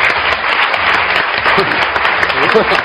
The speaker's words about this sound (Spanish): Muchísimas gracias, un aplauso para él.